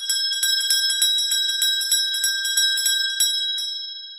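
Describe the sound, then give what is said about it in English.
A tiny bell on a gravestone, rung by a line pulled from inside a coffin as a premature burial alert, gives many rapid, high, bright tinkling rings in a steady jingling run that thins out near the end. “We run a line from within your loved one's final resting place up through the earth and out to a tiny bell attached to their gravestone. All they need do is tug on the line from inside the coffin, and a passerby will hear their cry of life.”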